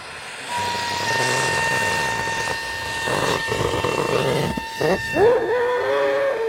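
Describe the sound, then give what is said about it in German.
Helium hisses from a gas cylinder as a weather balloon is filled: a loud, steady rushing hiss with a thin whining tone, ending in a few brief wavering squeaks. “Ein Wetterballon wird mit Helium aus einer Gasflasche gefüllt. Er wächst und wächst, bis er nach gut 1,5 Minuten einen Durchmesser von etwa 1 Meter erreicht.”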